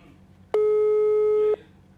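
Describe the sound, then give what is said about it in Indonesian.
A telephone tone sounds while a call waits to connect: one loud, steady, unwavering beep lasting about a second, then cutting off sharply. “Jadi kita langsung telepon Mario dulu ya. Sebentar. Oke, kita tunggu.”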